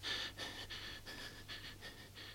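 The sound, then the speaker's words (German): Labored breathing of a restless sleeper: a faint, steady series of heavy, hissing breaths repeats at a regular rhythm over a low hum. “Sie atmet mühsam.”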